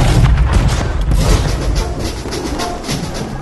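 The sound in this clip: Gunfire or cannon fire shot on an order to fire makes a loud, rumbling barrage of booms that roll together continuously and ease off slightly toward the end.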